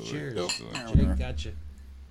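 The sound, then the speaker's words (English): Glasses clink together in a toast over a 110-proof spirit, a brief bright clatter amid overlapping voices of people talking. “Can we cheers? You guys cheers. Yeah, cheers.”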